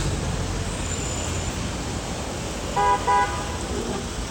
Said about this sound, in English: I'm in the traffic, I'm commuting back to work. That's all of this noise all about.